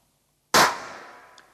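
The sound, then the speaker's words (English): A single starting pistol shot cracks in a large lecture theatre after a moment of silence, a sharp, loud bang whose reverberation trails off over about a second. “I'm going to fire a starting pistol, and I want you to listen to how long the sound stays round.”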